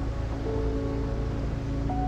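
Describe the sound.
Sea waves wash near railway tracks that the calm sea has slightly submerged, a steady, continuous surf hiss with no clear breaks for the whole stretch.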